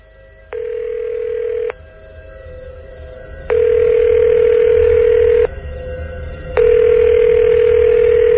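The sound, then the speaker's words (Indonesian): A phone call rings out unanswered: three long, steady ringback tones separated by silent gaps, loud over a faint steady background. “Aku coba telepon.”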